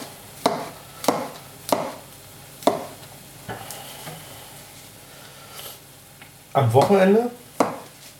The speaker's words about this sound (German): So, Champis klein schneiden.